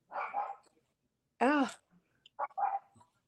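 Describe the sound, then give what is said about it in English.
A dog barks and whimpers: a few short vocal bursts surround one louder, drawn-out bark near the middle. The sounds are clear against a quiet background. “Your dog objects to what you're thinking. My dog totally objects.”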